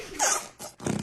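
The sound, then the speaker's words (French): Gooey slime squelching in a pot, letting out a few short, wet, fart-like squelches and squishes in quick succession. “Le slime, c'est un truc gluant, qui s'est fait des petits bruits. Et quand tu le mets dans un pot, ça fait des petits proutes.”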